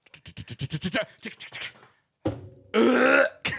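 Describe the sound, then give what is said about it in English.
A loud, low burp made straight into a microphone, set among short rhythmic vocal sounds and a burst of broad, noisy sound. “Whenever you need a burp that from up there, you have to run down here to your mic, then burp.”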